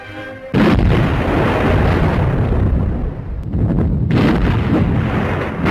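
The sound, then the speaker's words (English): Warship naval guns firing broadside after broadside in a sea battle against an aircraft carrier: a loud, continuous roar of heavy gunfire that starts abruptly, dips briefly, then surges again. “Die feindlichen Granaten liegen viel zu kurz. Breitseite auf Breitseite jagt aus den Rohren.”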